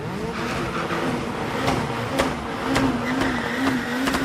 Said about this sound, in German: Vor dem Start lassen sie die Reifen auf dem klebrigen Asphalt einmal so richtig durchdrehen, auf das sich Gummi und Gummi vermählen.